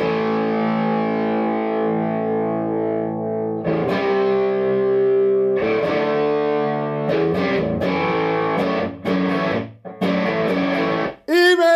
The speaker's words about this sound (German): hast du da irgendwo eine Gitarre rumstehen? Zufälligerweise. Nimm sie doch mal bitte in die Hand. Ja, einen Augenblick, ich schlage gerade mal an.